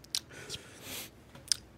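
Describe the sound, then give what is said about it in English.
Quiet chewing of a salty pretzel: a few sharp, crisp crunches spaced apart, with a soft grinding hiss between them. “this pretzel tastes like Old Bay.”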